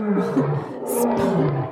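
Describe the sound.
A lion roars, a loud, sustained low growl with a wavering, rumbling pitch that carries on without a break.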